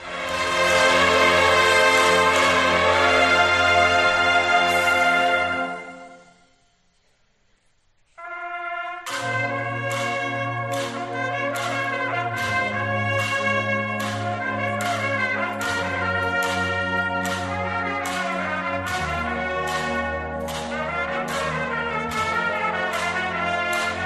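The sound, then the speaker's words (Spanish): A Holy Week processional march plays with sustained full chords that fade into a short silence. The music then returns with rhythmic, repeating chords over a steady low beat. “se podrá elegir una marcha que sonará en nuestro programa, como suena ahora la marcha Ruega por Nosotros.”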